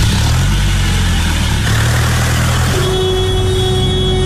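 A car accelerates hard, its engine roaring loud and continuous throughout, with a steady humming tone joining the rumble partway through.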